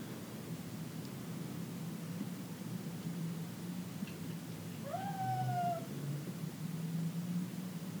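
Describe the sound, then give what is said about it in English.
A male house cat meows once, a brief wavering tone that is faint against a steady background hiss. “That's my cat.”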